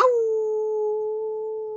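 A single long howl holds a steady mid pitch for nearly two seconds. It is clear and fairly loud, with no voices.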